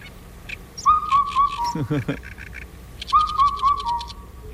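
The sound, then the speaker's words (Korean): A black-backed cuckoo calls in two clear whistled phrases of a few notes each, separated by a pause, with thin high bird chirps around them. “어떤 민요의 선율을 연상시키는 검은 등 뻐꾸기 울음소리 다시 한번 들어보시죠.”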